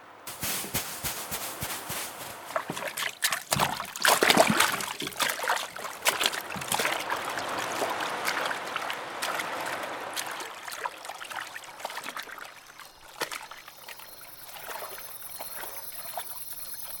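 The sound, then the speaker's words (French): A swimmer plunges into the sea off a tropical island with a bright splash, followed by churning, bubbling and trickling water as the swimming continues. “En attendant, la mer est trop belle. Je vais faire un plongeon.”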